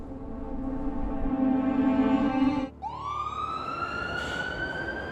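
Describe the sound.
An ambulance siren sounds loudly. A long steady tone breaks off abruptly, then the siren restarts with a rising, sweeping wail that continues to the end.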